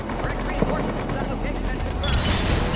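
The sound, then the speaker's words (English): Enemy gunfire in a shooter video game against Cerberus forces, a dense, rapid clatter of shots over steady loud noise, ending in a bright hiss. “Taking enemy fire from the Pacific, Caltech 4.”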